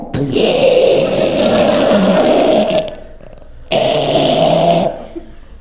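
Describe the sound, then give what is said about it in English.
A voice imitates a man's breathing as he falls asleep: two long, rasping, snore-like breaths, loud and guttural, separated by a short pause. “And people knew he was asleep because his breathing changed. So normally he breathed like this. And then when he would fall asleep, it turned into this.”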